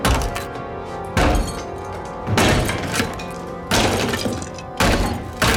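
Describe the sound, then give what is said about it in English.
Hatchet hacking through a ceiling: a run of loud, heavy thudding chops with splintering, breaking crashes, each blow landing at a steady, unhurried pace with brief lulls between. “At the top, he starts hacking at the ceiling.”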